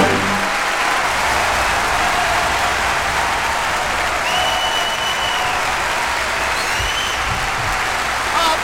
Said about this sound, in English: Because we like applause, we like applause, we like applause, we like applause.